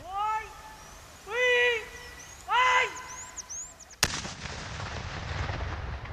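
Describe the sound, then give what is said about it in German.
A landmine located by a mine-detection rat is blown up in a controlled detonation: one sudden sharp bang followed by a sustained, rumbling roar. Several high, cat-like meowing calls come before the blast. “Ist die Ratte fündig geworden, kommt ein Räumungsteam zum Einsatz, die Mine wird kontrolliert gesprengt.”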